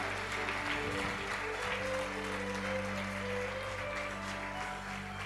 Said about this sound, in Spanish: ¿Cuántos le dan un fuerte aplauso a Dios?